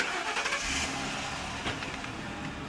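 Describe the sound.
A police car's engine starts and then runs with a steady, faint mid-pitched hum. Light rattles and a few short bursts sit over the motor noise. No one speaks.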